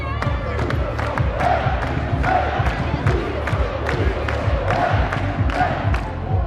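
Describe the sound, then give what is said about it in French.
Crowd cheering and roaring at a celebration as a cup trophy is brought onto a stage. A dense, continuous roar runs throughout, with sharp claps or bangs repeated over it. “La coupe vient d'apparaître sur scène, sous les ovations du public.”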